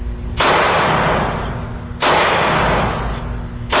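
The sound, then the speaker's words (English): Two loud gunshots from a Smith & Wesson Model 99 pistol, fired by a sheriff's deputy. Each shot is a sharp blast followed by a long, slowly fading rumble, with the second shot coming about a second and a half after the first. “Stearns County Deputy Sheriff Joe Litchie shoots rounds from his new Smith & Wesson 99.”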